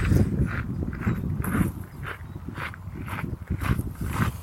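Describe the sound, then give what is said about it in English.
Footsteps crunch along a gravel path in an even walking rhythm, many crisp, gritty steps at moderate loudness throughout. “What a fun sound that is, walking on a path, gravel path.”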